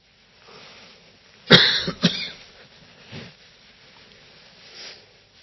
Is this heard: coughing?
yes